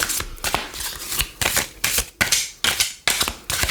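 A deck of cards being shuffled energetically: rapid, dense rustling and riffling bursts repeating throughout, crisp and fairly loud, with no talking.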